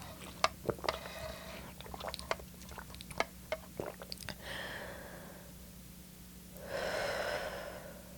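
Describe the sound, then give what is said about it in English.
A deep breath and drinking water: a run of small gulping and swallowing clicks, then two long, breathy breaths, all over a steady low hum with no talk. “Let's take a deep breath while I drink water.”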